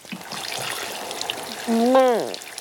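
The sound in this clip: Shower water runs as a steady hiss throughout, with a brief high whining voice rising and then falling near the end.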